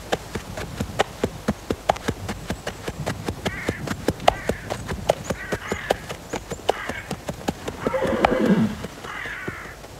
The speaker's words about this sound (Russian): Послушник выезжает верхом из ворот монастыря.